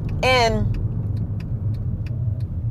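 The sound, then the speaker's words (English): A car is driving, with a low engine rumble under a steady run of soft, evenly spaced clicks lasting the whole clip; a short voice-like sound comes near the start. “I'm driving, so you're gonna be hearing the car click and all this other stuff.”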